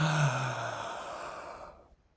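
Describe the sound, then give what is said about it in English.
A deep inhale during a guided breathing exercise: one long, breathy rush of air drawn in for about two seconds, fairly strong at first and then tapering away into silence. “Okay, so 1, 2, 3, inhale all the way.”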